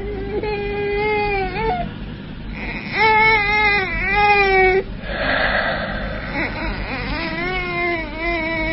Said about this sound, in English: Another baby. Crying, wailing, saying, make way,